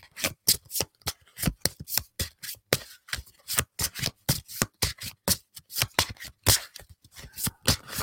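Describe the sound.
Tarot cards being shuffled by hand: many quick, crisp riffling and rubbing strokes in a steady, brisk rhythm, with no talk.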